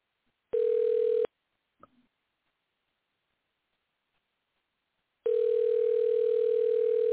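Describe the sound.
Telephone dial tone while a call is redialled: a steady, flat tone that cuts off after under a second, a small click in near silence, then the same tone returning and holding.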